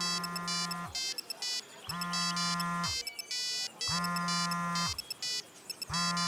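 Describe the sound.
A phone rings with an incoming call, an electronic ringtone repeating in four loud bursts about a second long, each followed by a brief gap, the last burst cut short.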